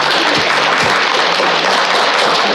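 Applause played as a sound effect, a dense, loud wash of clapping that stays steady and even from start to finish.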